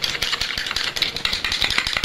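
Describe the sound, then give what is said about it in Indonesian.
Eggs being beaten by hand for frying, heard as a rapid, rhythmic clatter of many quick, sharp strokes in an unbroken stream. “Kocok telur ini, terus telurnya digoreng.”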